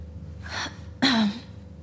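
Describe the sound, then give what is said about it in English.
A person who feels unwell takes a deep breath, a soft airy intake followed by a louder, voiced gasp whose tone drops as it fades. “Take a deep breath.”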